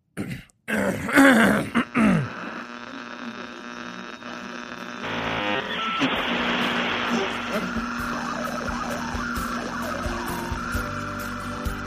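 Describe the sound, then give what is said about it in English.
Throat clearing: a few rough, loud bursts at the start, followed by a long, steady droning noise at a lower level. “I had something in my throat”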